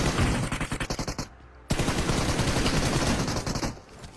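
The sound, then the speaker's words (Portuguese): Gunfire in the video game PUBG Mobile: a quick string of evenly spaced loud shots, a brief silence, then a longer dense stream of rapid fire that trails off at the end, with no talk. “Nossa, olha as balinhas. Que isso. É muito satisfatório ver essas balas de sniper, né, mano?”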